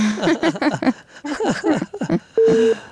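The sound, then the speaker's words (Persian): A phone call cuts off: after a stretch of talk, a single steady beeping tone sounds alone for about half a second. “متاسفانه تماس جانم قطع شد.”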